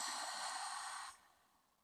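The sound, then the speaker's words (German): Forceful exhale through a wide-open mouth, a breathy rush lasting about a second before it stops short, faint and alone. “Tief einatmen über die Nase. Den Mund weit öffnen, kräftig ausatmen.”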